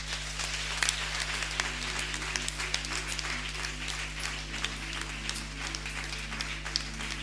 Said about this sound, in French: Alors, qui est d'accord avec moi Tu vas acclamer le Seigneur.